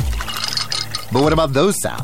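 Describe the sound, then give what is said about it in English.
Water from a Samsung Bespoke refrigerator's internal dispenser filling its built-in pitcher, a brief noisy rush lasting about a second, followed by a voice speaking. “Those are the sounds of the Samsung Bespoke Refrigerator's beverage sensor with internal water dispenser and built-in pitcher”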